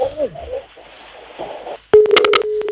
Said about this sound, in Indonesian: Ah, terputus teleponnya sudah